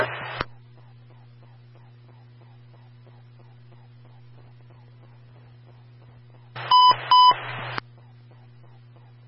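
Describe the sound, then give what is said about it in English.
An emergency transmission alert tone on a fire department radio: a short static burst, then a long low steady hum with faint regular clicks, then another burst carrying two short high beeps. “stand by for their emergency transmission tone.”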